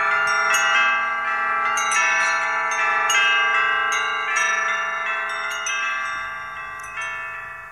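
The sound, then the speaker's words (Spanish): Village church bells peal continuously, many overlapping bright metallic strikes ringing out in a dense, steady clangor with no voices. “No tardaban los de Tundelatapa en echar a vuelo las campanas de la iglesia, más otras campanas que habían adquirido y que ya no sabían dónde colgarlas.”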